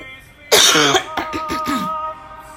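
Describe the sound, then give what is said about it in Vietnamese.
A person coughs once, hard and loud, then a few softer, raspy throat sounds trail off into quiet. “đợi mình một chút, mình bị ho.”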